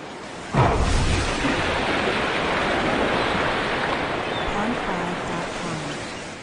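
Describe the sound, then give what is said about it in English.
Explosion blast powerful enough to sink battleships, near a beach: a sudden loud onset gives way to a dense, steady roaring rumble that holds at full strength for about six seconds. “If I remember right, they sunk 5 or 6 battleships with that blast. Just completely flipped them over and gone.”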